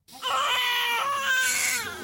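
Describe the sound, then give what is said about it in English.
A newborn baby cries in a hospital in Nablus: one sustained, high, wavering wail lasting about two seconds, fairly faint and heard alone. “In a Nablus hospital, the cries of a newborn as new life emerges from tragedy.”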